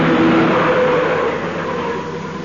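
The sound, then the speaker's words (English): A car drives along with a steady, fairly loud mix of engine and road noise that eases slightly toward the end, with no voices. “You may drive us home. Turn right at the next corner.”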